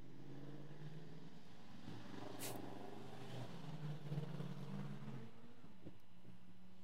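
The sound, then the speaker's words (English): Faint engine drone of motorcycles passing by outside, a low rumbling hum that swells and shifts in pitch, with no voices. “I won't compete with the motorcycles.”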